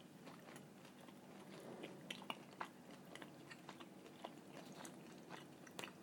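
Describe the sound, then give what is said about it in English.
Someone biting into and chewing a fish cake with a fine, crispy breadcrumb coating, giving faint, crisp crunches and soft chewing clicks over a quiet background. “Right, let's try one of these fish cake things, which I think are these ones.”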